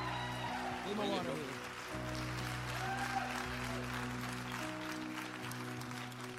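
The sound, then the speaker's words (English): Applause from a church audience welcoming a speaker to the stage, a steady, even wash of clapping kept at a low, faint level throughout. “So I want you to put your hands together and welcome my friend, your friend, my buddy.”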